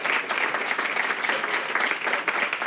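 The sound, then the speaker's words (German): Loud, continuous applause from a comedy show audience, a dense, even roar of clapping that stays strong from start to finish. “Den Applaus merken wir uns und dann halt den Applaus gerne einfach noch 3-4 Sekunden länger”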